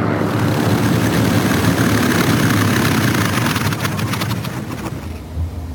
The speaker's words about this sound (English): Two Japanese Zeros land and taxi across the tarmac toward Nick and Joe.